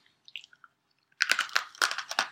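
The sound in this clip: Someone chews a cookie dough brownie dessert. A few faint soft clicks come first, then a run of moist, crunchy chewing bursts in an irregular rhythm, all fairly quiet.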